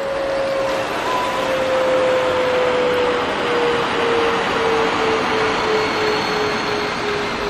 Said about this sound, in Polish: O, kolejny samolot wiezie kolejną porcję turystów